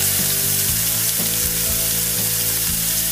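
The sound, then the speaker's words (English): A pineapple slice sizzles loudly on a grill in a continuous hiss, with a few soft pops and crackles scattered through it. “But look what happens when I put it in the Northrop Pineapple Grill.”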